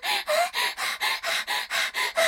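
Excited human panting: nine rapid, breathy gasps in a steady, even rhythm, each a short airy burst with a brief gap between, loud and without words.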